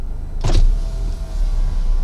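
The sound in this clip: A car's electric window motor lowers the window while the car waits in a drive-through line: a short whirring burst over a steady low rumble.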